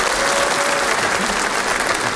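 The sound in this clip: Audience applauding after a performer jokes about being married: a dense, continuous wash of clapping that holds steady and fairly loud for the whole stretch, with no break or fade.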